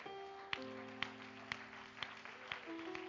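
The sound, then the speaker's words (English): Hand clap of praise at a church service: six faint, evenly spaced claps land about twice a second over soft, sustained musical tones. “Oh, give him a hand clap of praise tonight.”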